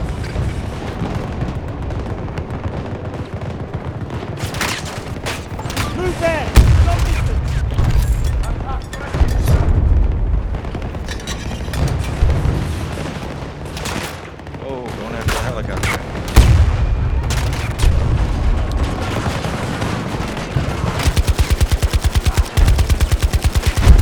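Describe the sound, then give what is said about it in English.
Gunfire and explosions in a video game battle: rapid machine-gun bursts, single shots and heavy booms come in waves, with several loud blasts near the end and players talking over the action. “Oh, grenade, Sorry. run! Oh. I got shot immediately. Attack on Charlie 1 initiated by our troops.”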